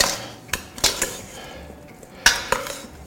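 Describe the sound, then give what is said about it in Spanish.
A metal ladle stirs salt into a large pot of food meant for eight to ten servings, producing a few bright, sharp clinks against the pot separated by quieter scraping and swishing. “Vamos a coger un cucharón de estos y voy a remover, pues, para que esta sal”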